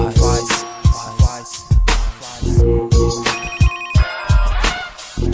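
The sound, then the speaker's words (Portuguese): A telephone ringtone in a hip-hop beat: a repeating electronic ring melody over loud thumping bass and drum hits, with no voices. “Telefone tocou, quem será que me ligou?”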